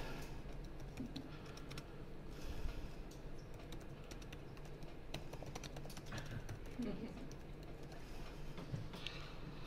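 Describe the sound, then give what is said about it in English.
Typing on a computer keyboard to enter a short chatbot message, many quick, faint keystroke clicks in an irregular rhythm over steady background hiss. “So if I just type in hi, been all right.”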